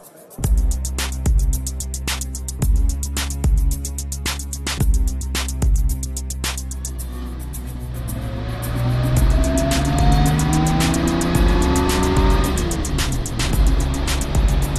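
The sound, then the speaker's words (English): Engine of a small red Peugeot 303 as it drives: a steady, loud engine drone with regular clicking early on. The engine pitch then climbs as it accelerates toward the end. “Tasty little motor, this. Handles well. Got a bit of poke, too.”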